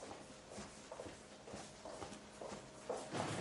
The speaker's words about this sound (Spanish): Thierry sale apresuradamente y se aleja por el pasillo.